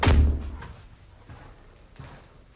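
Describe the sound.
A door into an old house opens with a heavy low thunk, then a few fainter knocks and shuffles follow as someone passes through. No one talks.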